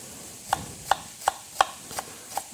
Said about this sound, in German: Ich habe jetzt hier kleine Schalotten genommen. Einfach in dünne Streifen schneiden.